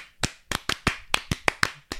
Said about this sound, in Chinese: 我们一定彼此鼓励，要爱的鼓励，是不是？ 好，我们一起爱的鼓励给大家听。一二三。